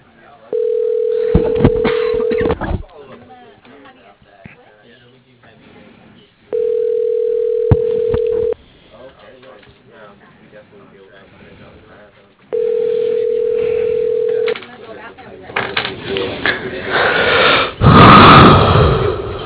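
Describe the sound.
Telephone ringback tone heard while a call is transferred: three long, steady mid-pitched tones of about two seconds each, evenly spaced with quiet gaps of line noise and faint breathing between them, then a louder rush of noise at the end.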